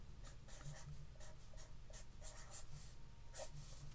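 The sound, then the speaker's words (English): A Sharpie marker writing a word, its felt tip giving a rapid series of short, scratchy, squeaking strokes in uneven rhythm, fairly loud and alone, with no talking. “Oh, there's a Sharpie there. I'm going to talk about it. Right, I'm just going to write this word here. And I feel weird writing it, right? But I'm just going to write it.”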